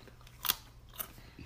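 Carrots dipped in hummus are chewed, giving a couple of sharp, crisp crunches about half a second apart. Faint mouth noises follow between and after the bites.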